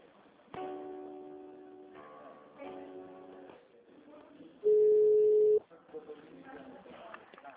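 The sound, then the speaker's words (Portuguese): Telephone line tones as a call is being transferred: several humming, buzzy tone segments, then a loud, steady pure tone lasting about a second, over a low, noisy line background. “Eu vou te transferir aqui, tá?”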